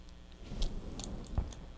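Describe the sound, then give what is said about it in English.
A set of keys jangles as a baby grabs and shakes them, giving a few brief, bright metallic jingles with soft low knocks, faint throughout. “Got your keys, huh? Shake, shake, shake, shake, shake.”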